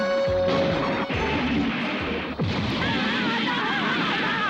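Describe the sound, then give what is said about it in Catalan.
Heavy crashing as a rock breaks loose and falls onto an army vessel, with a few sharp impacts over a continuous loud, rumbling din. “Una roca se'n desprèn i cau sobre la nau de l'exèrcit, que queda mig encallada.”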